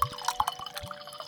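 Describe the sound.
Burgundy wine is poured into a glass in a short, gurgling trickle with a few distinct drips, soft and brief with no voices.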